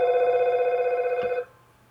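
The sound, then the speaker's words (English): A telephone rings with a steady, rapidly warbling electronic tone that holds for over a second and then cuts off abruptly, leaving near silence. “Let me stop this phone.”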